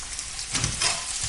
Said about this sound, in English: So what you do then is just throw those into the onion mix, okay? Just put the chicken in.